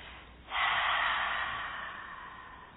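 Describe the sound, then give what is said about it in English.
A single deep breath is released through the mouth during a guided breathing exercise. It begins after half a second of quiet as a steady, breathy rush of air and fades slowly over about two seconds. “hold it for a count of three, and then release the breath through the mouth.”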